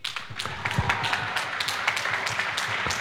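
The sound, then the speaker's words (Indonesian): Audience clapping for a team on a quiz show: light, scattered claps and taps, uneven in rhythm, at a moderate level throughout. “Tepuk tangan untuk Regu B sekali lagi.”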